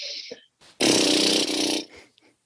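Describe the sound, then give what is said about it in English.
A deep inhale through the nose, given as a breathing demonstration with one hand on the diaphragm and one on the lower abdomen. It is a single loud, breathy rush lasting about a second, then it stops. “we take an inhale through our nose, and it sounds like this.”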